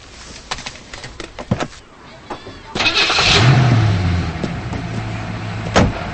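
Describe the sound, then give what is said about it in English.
A few knocks and clicks, then a car engine starts and revs into a loud, steady drone as the car speeds away down a highway. “Davis drives away. He speeds down the highway.”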